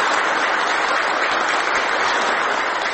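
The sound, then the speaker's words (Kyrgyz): Prolonged applause at a Turkmen security committee meeting as the president presents his book, an unbroken, even wash of many hands clapping that holds steady at the same loud level throughout. “Мехрван халкыма согу деген президент Курбангулу Бердимухамедов эмгегин коопсуздук комитетинин жыйыны учурунда тааныштырды. Кол чабуулар узакка созулду.”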